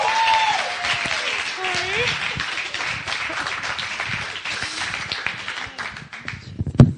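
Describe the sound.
An audience at a church gathering applauds as a guest speaker comes up. Steady, dense clapping continues throughout, with voices rising over it.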